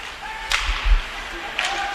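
Sharp whip-like cracks from a hockey shot and the puck striking a player during a game, two crisp hits about a second apart, with dull low thumps between them over steady arena crowd noise.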